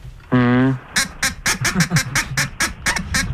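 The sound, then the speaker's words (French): A pet duck quacks: a drawn-out nasal call followed by a rapid, loud run of many short, clipped quacks. “les animaux de compagnie sont acceptés ou pas? Parce que je viendrai avec mon canard.”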